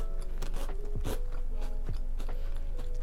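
Biting and chewing a chocolate snack produces a few faint, crisp crunches and crackles scattered over a low, steady background.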